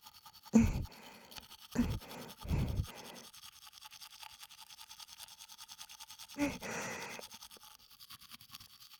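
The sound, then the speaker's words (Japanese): A chilled toothbrush scrubs in quiet, rapid, rhythmic strokes, with a few louder, sharper brushing bursts standing out against the soft, continuous scratching. “ひんやりしてる方が気持ちいいでしょ。だから歯ブラシはそのままにしておいたわ。ひんやりとした歯ブラシ、ご堪能あれ。”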